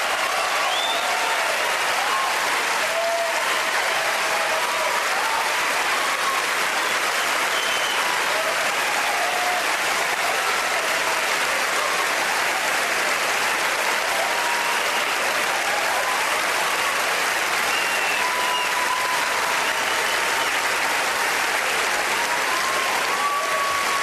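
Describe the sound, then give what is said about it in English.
An Oscar ceremony audience erupts in sustained, dense applause and cheering as Roman Polanski wins for The Pianist. The ovation stays loud and unbroken throughout, with scattered whoops rising above the clapping. “Let's listen to all the cheering. And the Oscar goes to Roman Polanski for The Pianist.”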